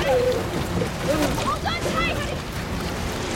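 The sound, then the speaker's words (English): Splashing and sloshing water as people jump into the ocean from a sinking ship amid floating wreckage, a few soft splashes over a steady watery wash, fairly faint. “Chris and Jennifer jump into the water and surface near the others.”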